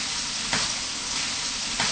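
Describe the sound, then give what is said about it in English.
Sizzling of tofu frying in hot oil, a steady bright hiss with two brief louder bursts partway through. “And let them fry it really well. Now and again, you stir it up, huh?”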